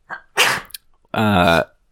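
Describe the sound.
A single sneeze: a short intake, then one sharp, noisy burst, followed by a brief spoken remark from a person.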